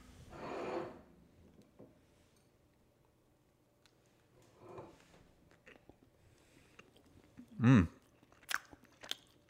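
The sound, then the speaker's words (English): Crunching and chewing of a cookie: a few separate crisp bites and munches with quiet gaps between them, heard on their own without talk. “Now I'm gonna try one of these cookies and let you know what I think.”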